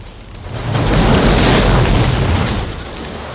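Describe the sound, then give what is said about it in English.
A car slams into an electrical junction box and explodes in a gigantic fireball: a loud, deep roaring blast that swells and rumbles for about two seconds, then eases off. “The car collides with the electrical junction box and explodes in a gigantic fireball.”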